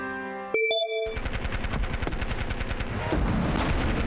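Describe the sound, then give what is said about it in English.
Rapid machine-gun-style gunfire of World War I trench warfare, dense bursts of sharp cracks running without pause after a few brief ringing tones at the start. “What is that bloody noise? Sage and Savant have come to in bodies buried in the bloody and horrifying trench warfare of World War I.”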